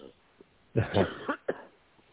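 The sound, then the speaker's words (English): A person with a bad cold coughs: a quick cluster of a few husky bursts in the middle, fairly faint, with near silence before and after. “I'm getting a terrible cold, so I have a cough.”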